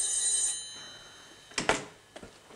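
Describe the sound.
A telephone rings with an incoming call: one short, bright, metallic bell burst at the start, then quiet, followed by a few sharp clicks.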